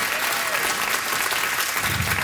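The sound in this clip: An audience applauds a speaker, with dense, steady clapping throughout.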